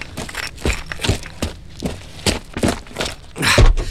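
Footsteps of people walking back into the house: many regular footfalls land about every half second, with soft scuffs between the steps.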